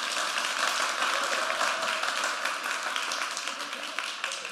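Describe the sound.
A church audience applauds, a dense and steady wash of many hands clapping that stays loud from start to finish.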